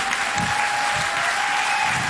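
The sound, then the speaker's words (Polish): Audience applause at a radio concert rolls on as a loud, unbroken wash of many clapping hands, steady in level across the whole moment, with a faint sustained tone running beneath. “Wielkie brawa dla Państwa!”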